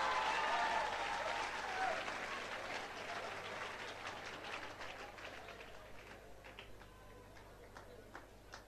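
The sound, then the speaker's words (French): Applause from a French-speaking audience cheering an interpreter: dense, steady clapping that starts loud and gradually thins and fades over several seconds. “Est-ce qu'on peut acclamer mon interprète?”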